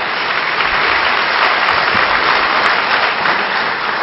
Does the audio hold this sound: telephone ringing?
no